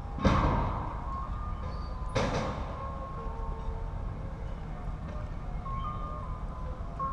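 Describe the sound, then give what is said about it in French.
An advertising truck plays music in the street, a faint, thin melody of sustained tones over a low, steady street hum, broken early on by two sharp bangs. “Ah, un camion publicitaire.”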